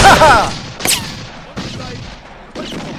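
Gunfire in an audio drama: a few separate shots with short, rumbling tails, spaced unevenly, after a louder burst of noise at the start.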